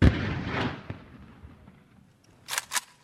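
Gunfire during a battle at a recently captured checkpoint. A heavy boom opens and slowly fades, a sharp report follows, and then two quick, bright cracks sound close together near the end, all moderately quiet.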